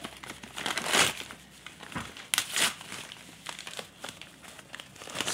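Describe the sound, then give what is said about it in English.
Crinkling and rustling of wrapping as a gift of glassware is unwrapped, with a few louder bursts of crumpling between quieter handling rustles and no talk. “So she's unwrapping it now.”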